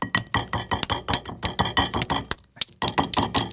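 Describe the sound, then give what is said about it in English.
Rapid, crackly taps and clicks of an egg's shell being cracked, a light gray-bluish shell with darker spots. Many sharp, fairly faint clicks come in quick succession with a brief pause near the end. “The outside of the egg, I would say, is like this light gray bluish hue with some darker spots. So I'm gonna crack mine.”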